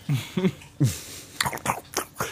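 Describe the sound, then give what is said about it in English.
A dog licking and lapping water makes many quick, wet slurping bursts in an uneven rhythm, moderately loud, with no talking. “That is a dog licking water.”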